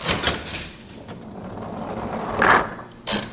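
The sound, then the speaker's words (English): A ball rolls with a low, steady rumble through a 1940s skee-ball machine, then two short, loud clacks ring out near the end. “if you can get it into the 50 in the old games, the ball would come down and... Oh, you just did. And hit a bell.”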